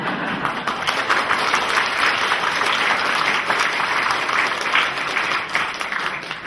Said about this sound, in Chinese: 那刚才就说咦，今天好像第二次掌声的喎。